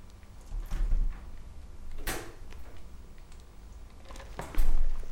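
A door is opened, heard as a few faint, short clicks and knocks of the mechanism over a low background, with no talk.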